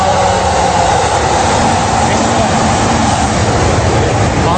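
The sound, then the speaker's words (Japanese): A train on the Tokaido railway line passes by with a loud, continuous rumble and roar that stays steady and heavy from start to end and drowns out everything else. “東海道線が通ってる間は何も聞こえなくなります。”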